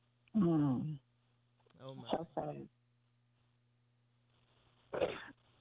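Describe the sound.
A sneeze, heard as a few short, voiced, explosive bursts separated by quiet gaps, moderately loud.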